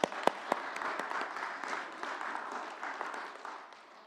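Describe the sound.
Applause for children at a church service: sustained crowd clapping, opening with a few sharp, loud claps and then settling into a dense, steady patter that gradually fades toward the end, with no talk over it.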